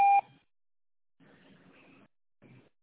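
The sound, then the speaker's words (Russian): A voicemail recording beep: one short, loud, steady electronic tone at the very start, followed by faint, muffled line noise in two short stretches. “Оставьте сообщение после сигнала.”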